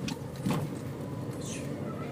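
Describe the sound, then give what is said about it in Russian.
A car drives along an asphalt road, giving a steady, low rumble of road and engine noise that stays even and fairly quiet throughout, with no voices. “Ну, мы едем только по асфальту, больше дороги никуда нету.”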